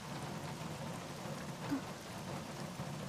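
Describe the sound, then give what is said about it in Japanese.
Rain beginning to fall makes a soft, even patter, faint and continuous without pause, with one slightly louder drop partway through. “なんか雨が降り始めちゃったね”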